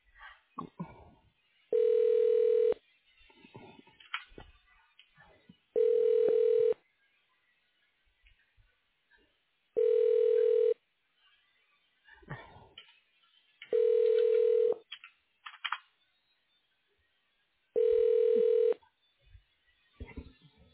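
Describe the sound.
Telephone ringback as a call is transferred: five steady, mid-pitched ring tones about a second long, repeating at even intervals, with faint clicks and low noise between them.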